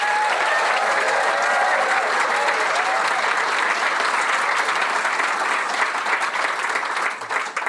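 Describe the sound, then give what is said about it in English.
A crowd applauds to welcome a guest onto the stage at an evening event, with steady, dense and fairly loud clapping that holds evenly before tapering off at the end. “Please put your hands together and join me in a warm welcome for the one and only Nicole Fahey.”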